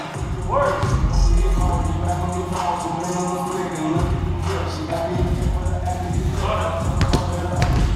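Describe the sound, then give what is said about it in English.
Dull thuds of an Australian football, a footy, being bounced and passed around for fun, a few soft thumps heard under people talking. “we just thought we'd have a bit of a play, pass the footy around, football, just for a bit of a laugh.”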